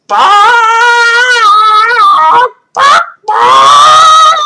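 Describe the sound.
A human voice imitates a pet bird's loud morning call, producing three harsh, nasal, goose-like honks: a long wavering one, a short one, then another long one, loud and alone.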